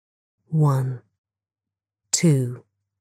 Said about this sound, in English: place your hands on your stomach and take a deep breath in.